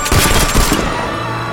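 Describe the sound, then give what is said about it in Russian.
Assault rifle gunfire, a quick burst of a few loud, sharp shots that leaves a sustained noisy ring afterward. “Артем поднимает с земли автомат. Стреляет в Юлю и Хэкона.”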